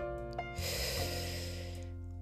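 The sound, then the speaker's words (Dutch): A single deep, airy breath lasting about a second, drawn during a relaxing breathing pause on a walk, over soft, sustained musical tones. “Dus halen diep adem”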